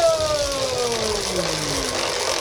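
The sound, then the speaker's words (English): A game show prize wheel given a big spin whirs with a tone that steadily falls in pitch as it slows, over a low background hum. “You're going to work as a team and I'm going to spin the wheel. Do you want a big spin or a little spin to decide on? Big it is.”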